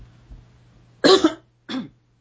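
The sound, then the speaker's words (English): A person with a rough throat coughs twice, a harsh, loud burst followed by a shorter, weaker cough, with faint background noise between them. “I'm sorry, I'm having a little rough throat. Take a little water here and cough for a minute.”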